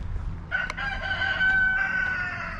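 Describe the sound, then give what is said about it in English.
A rooster crows at 5 p.m. near a railway bridge and tracks. One long, drawn-out harmonic call begins about half a second in, holds steady and then trails off over a low rumbling background. “I think that rooster, I think his internal clock is a bit off. Right now it's 5 p.m. It's 5 p.m. and the rooster's crowing.”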